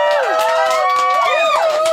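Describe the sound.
A live audience cheers and whoops at a music show, loud overlapping voices with rising and falling shouts and whistles sustained throughout.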